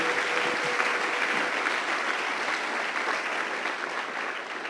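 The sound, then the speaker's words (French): A church audience applauds during a sermon, honoring the Son of God. The clapping is continuous and dense at a moderate level, easing off slightly toward the end. “J'aimerais qu'on l'acclame très fort avant de terminer.”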